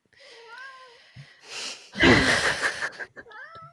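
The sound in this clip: A cat meows a few times with clear, wavering tonal cries. A harsh, breathy, noisy burst interrupts the meows in the middle before more meowing at the end.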